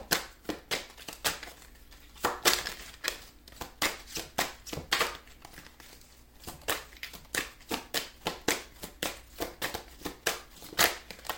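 Tarot cards being shuffled and drawn by hand make many crisp, papery snaps and slaps in an uneven, rapid run, with brief pauses between bursts.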